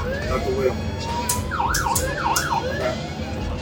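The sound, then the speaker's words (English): An emergency vehicle siren, set with a tone knob on its control panel, sounds loud and continuous. Its fast warbling wail rapidly rises and falls in pitch over a steady low rumble. “To change the siren tone, rotate the knob to the right of the slide switch. You have 3 tones to choose from.”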